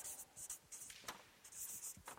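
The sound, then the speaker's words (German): Writing on a board: faint, scratchy strokes come in many short bursts, light and dry, with no voices. “Ich schreibe mal hier hin, werden geprägt.”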